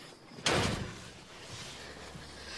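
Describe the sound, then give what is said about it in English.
A car door is shut in a single sharp slam, loud and abrupt, followed by a low rumble and faint hiss with no voices. “Laura shuts Nathan's door and hurriedly runs to get into the truck.”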